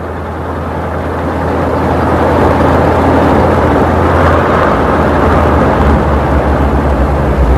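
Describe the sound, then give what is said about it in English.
A car drives off, its engine giving a loud, steady low rumble that swells slightly after the first second and then holds evenly to the end. “Madeline drives off, followed by Scotty.”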